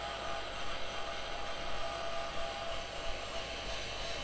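A hair dryer blows steadily as it dries hair, making a constant airy whoosh with a low hum underneath. The level stays even from start to finish.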